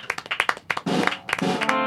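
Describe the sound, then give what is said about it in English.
A few people clap in uneven, scattered bursts at a lively gathering, with sharp separate hand smacks rather than a smooth wash, some clustering closely together and others spaced apart. “I think we should all applaud.”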